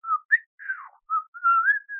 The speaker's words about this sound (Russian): насвистывая, направился к лесной опушке.